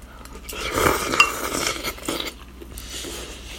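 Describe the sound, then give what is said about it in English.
Utensils clink and scrape in a bowl while someone eats udon noodles topped with a soft-boiled egg. Irregular stirring and clattering continues throughout at moderate loudness, with no talk. “Now I'm eating udons with soft boiled egg.”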